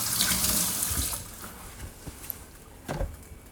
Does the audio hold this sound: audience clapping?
no